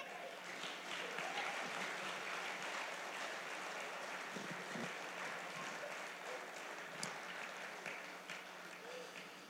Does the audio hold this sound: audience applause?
yes